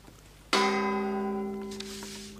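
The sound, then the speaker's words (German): A single gong stroke marks the exact time on the radio, with a sudden bright attack followed by a long, steady ring that slowly fades. “Die genaue Zeit mit dem Gongschlag 17 Uhr.”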